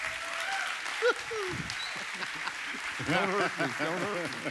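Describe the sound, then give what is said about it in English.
Applause from a church audience welcoming a pastor, a steady clapping wash lasting the whole clip, with raised voices and shouts standing out above it, strongest near the end. “Come on now, give Pastor Greg a hand.”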